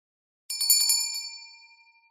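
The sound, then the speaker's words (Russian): A small hand bell rings in a quick flurry of bright, high, metallic strikes, then its tone lingers and fades away for about a second, with no voices. “Он позвонил в колокольчик и попросил позвать жену.”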